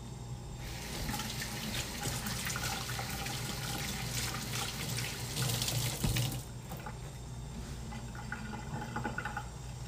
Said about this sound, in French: Je dois tout le temps me rincer les doigts à chaque truc, genre. À chaque fois que je touche à quelque chose qui a un petit peu d'huile